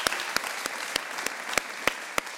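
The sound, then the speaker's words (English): A church audience applauding to welcome first-time visitors: a steady, moderate wash of clapping with single sharp claps standing out at a fairly regular beat. “Let's put our hands together and welcome all those here for the first time.”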